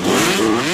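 Motocross bike engine revving in a brief, loud, steady burst, its throaty mid-pitched drone holding level with no voices over it.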